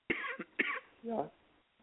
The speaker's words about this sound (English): I'm sorry, go ahead. I just coughed. I'm sorry. Oh, so, I have a little bit of cough.